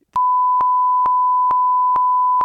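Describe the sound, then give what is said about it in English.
A censor bleep tone sounds as a loud, steady high-pitched beep, held unbroken for over two seconds, with soft clicks pulsing at a regular rhythm beneath it. “Or if I don't release this after Christmas, then I'll bleep it out.”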